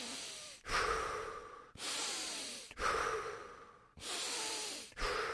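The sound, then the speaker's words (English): Steady circular breathing with no pause at the top or bottom: a few full breaths in and out that flow straight into one another as a continuous soft, hissing airflow, fairly faint and with no talk. “So there's no rest at the top or the bottom. It's just circular breath.”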